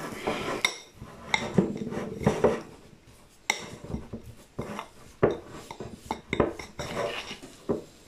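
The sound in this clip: Spoon scraping and knocking against a pot as food is stirred, fairly soft, irregular scrapes and clinks.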